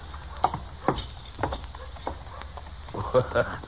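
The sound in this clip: Horse hooves clip-clop along Front Street in a Western frontier town, a staged drama sound effect of a few separate, moderately loud hoofbeats in an uneven walking rhythm over a soft, steady background.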